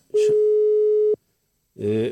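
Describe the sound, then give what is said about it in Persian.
Telephone ringback tone while a call is placed: a single steady, pure tone lasts about a second, followed by a brief silence, with short bursts of voice just before and after it. “خب اجازه بدین دوباره زنگ بزنم به آقای مهینه”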